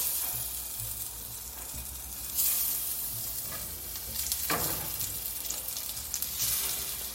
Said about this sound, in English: Ooh, sizzle. And if they sizzle but not burn, you're good to go. So I'm going to get my 6 croquettes and I'm going to load them up.